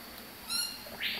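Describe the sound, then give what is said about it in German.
Birds in a jungle tent waiting to be fed breakfast: a faint harmonic squawk followed by a harsher, higher screech, over a quiet hiss. “Ich verteile jetzt das Frühstück für die ganzen Vögel hier im Dschungelzelt und mache dabei gleich wieder eine kleine Kontrolle, ob alle da sind.”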